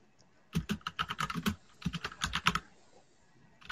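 Rapid typing on a computer keyboard: many crisp keystrokes in dense bursts, a short pause near the middle, then another quick run of clicks before the keys trail off, with no talking.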